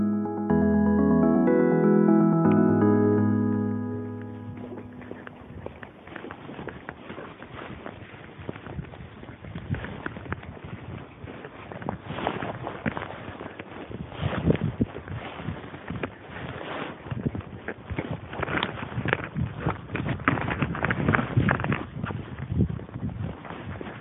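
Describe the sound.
Footsteps walking back down a path: a long, steady run of many crunchy, irregular steps that continues alone for about twenty seconds.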